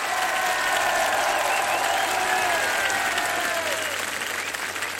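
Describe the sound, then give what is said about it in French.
A jazz festival crowd at Châteauvallon applauds for an encore. The clapping is thick and continuous, with steady loudness, easing only slightly near the end. “Le public du festival de Château-Vallon en redemande, comme vous pouvez l'entendre.”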